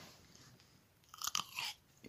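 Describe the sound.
Someone bites into and chews grapes, with a wet, crunchy burst of a few quick bites and squelches after a nearly silent start, then a softer chewing sound at the end. No one talks.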